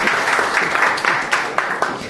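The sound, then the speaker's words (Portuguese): Audience applause at a Portuguese-language talk: a dense, steady patter of many hands with a few sharper claps standing out, holding a fairly even loudness throughout. “Então, uma salva de palmas a vocês para não ficarem bravos comigo.”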